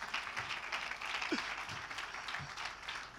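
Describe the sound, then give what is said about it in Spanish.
Applause from an audience during an evening church healing service, a soft, steady patter of many hands at a fairly low level that swells into a louder burst at the very end. “Fuerte ese aplauso.”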